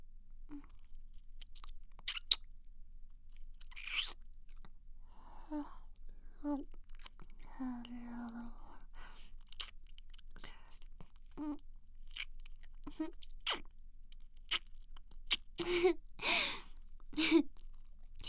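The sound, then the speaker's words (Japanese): Close, faint licking and chewing of a sausage: wet smacks, mouth clicks and small crunches at irregular intervals, with soft whispered vocal sounds in between. “それじゃあソーセージペロペラするけん見とって。”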